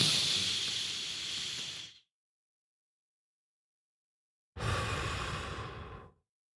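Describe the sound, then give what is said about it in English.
A deep breath is drawn in with a loud airy hiss, followed by a couple of seconds of silence while it is held, then released in a long, steady, breathy exhale. “what I want you to do is take a deep breath, hold it, and then exhale. So let's do this together.”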